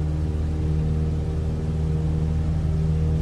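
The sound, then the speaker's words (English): Aircraft engine humming as takeoff begins, a loud, steady low drone with distinct tonal layers and no clear change in pitch over the few seconds. “Parking brake off. Now we're gonna take off.”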